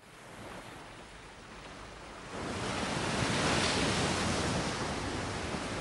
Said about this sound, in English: The waves crash against the dark blue ocean in rolling, foamy lines.